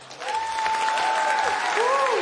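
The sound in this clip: Audience applause at Mountain Stage welcomes a performer back, with dense, steady clapping and shrill whistles gliding above it, sustained at full strength throughout.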